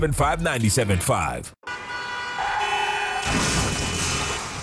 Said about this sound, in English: Oh, dang. Man, this truck just hit me. What I'ma do now? Injured in a car accident and don't know what to do?